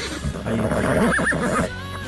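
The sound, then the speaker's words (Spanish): A mare neighs after getting loose from the corral: a short, wavering whinny of about a second rises out of a low background hum. The call is moderately loud and stands alone. “Se soltó la yegua de la tranquera. Del corral, digo, cerrale la tranquera.”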